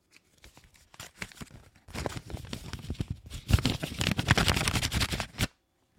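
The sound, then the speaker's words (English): A letter envelope being torn open by hand: a run of papery rips and crinkly rustles, starting soft and growing louder and denser before stopping abruptly. “He actually brought a letter. There you go. So, yeah, let's open this.”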